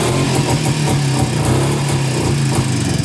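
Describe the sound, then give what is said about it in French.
Single-cylinder motorcycle engine with two exhaust outlets running steadily, a loud, low, throbbing drone with a regular pulsing beat and no change in pace throughout. “C'est un monocylindre. Un cylindre, avec deux sorties d'échappement.”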